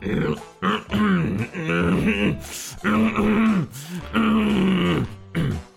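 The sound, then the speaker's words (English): A man clears his throat in a long series of drawn-out, groaning, rasping bursts, separated by short breaths and hisses. “He cleared his throat.”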